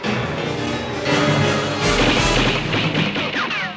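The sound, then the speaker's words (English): Gunfire in a film scene as terrorists shoot a man in a mall parking lot at night: dense, loud, continuous volleys of blasts and cracks with no pauses and no voices. “as the terrorists riddle Doc Brown with bullets”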